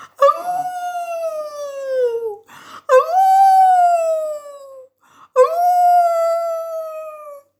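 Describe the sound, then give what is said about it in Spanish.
A wolf howls three times, loud and alone. Each long howl starts sharply on a high note and slides slowly downward, with brief gaps between the calls. “en cuanto oyeron aullar al lobo, salieron los perros de todas las casas a por él.”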